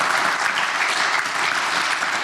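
A live audience at a science and innovation event in Tübingen applauds with dense, even clapping throughout.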